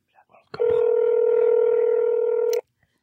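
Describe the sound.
A telephone tone sounds as a number is dialed, a single steady held tone lasting about two seconds, starting and stopping cleanly after a few faint brief sounds.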